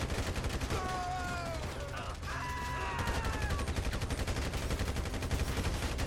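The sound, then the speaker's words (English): Rapid automatic gunfire in a shooting video game set in a small snowy town with police, continuous dense bursts that rattle on for several seconds at a fairly even loudness. “I was just laying cover fire for everybody.”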